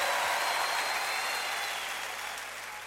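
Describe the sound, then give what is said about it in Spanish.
Applause in response to a request for a big hand: a fairly faint, even wash of clapping that slowly fades over about three seconds. “Fuerte aplauso, por favor.”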